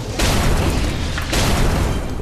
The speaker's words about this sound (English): He is going to, one, launch a pair of missiles at you